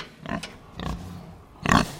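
A sow rolls over in straw, giving three short bursts of rustling and low grunting, with the last burst the loudest.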